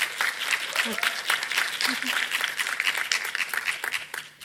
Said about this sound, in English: So please give them a hand and a warm welcome.